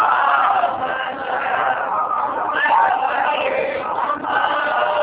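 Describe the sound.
A seated audience at a religious gathering chants salawat, blessings on the Prophet, together: a dense, steady mass of many voices that holds its level throughout.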